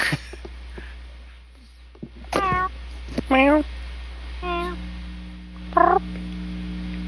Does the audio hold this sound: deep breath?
no